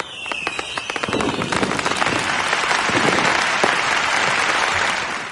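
Crowd applause celebrating the hundredth anniversary of the first electrical recording: dense, crackling clapping that swells within the first second and stays loud and steady to the end, with a high whistle near the start.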